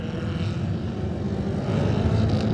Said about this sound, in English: Number 4, of course, is Jamie Coward on the Craven Classic Racing Machine, the Manx Norton 500. Jamie up on the pipe he goes and away.